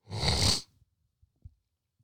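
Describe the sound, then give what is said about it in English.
A harsh, snorting inhale as a person draws phlegm into the back of the throat, one loud rasping burst of about half a second, followed by a few faint clicks and near silence. “And yes, that was me inhaling phlegm into the back of my throat.”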